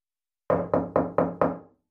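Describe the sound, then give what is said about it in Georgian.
Knocking on the door of a grandmother's house, as a wolf raps in a fairy tale: five loud, evenly spaced knocks in a steady rhythm, each with a short ringing decay, heard alone. “დგას მგელი კარებთან და აკაკუნებს.”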